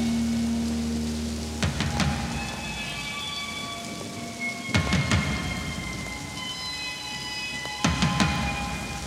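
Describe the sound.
Steady, heavy rain pours throughout a heavy metal song intro, broken by three loud thunder cracks spaced at roughly even intervals.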